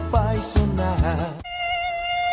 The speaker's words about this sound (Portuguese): Aedes aegypti, combata esse mosquito.